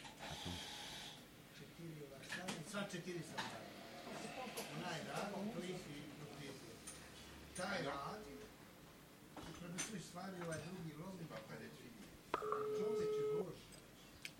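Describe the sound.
Telephone dialing tones for an on-air call: people talk through most of the stretch, then a steady electronic tone pair sounds near the end for about a second, standing out above the chatter.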